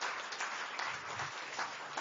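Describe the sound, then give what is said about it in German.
Congregation applause during a church worship service: a thick, even patter of many hands clapping together, holding at a steady moderate level without a clear build or fade. “Können wir alle Applaus groß geben?”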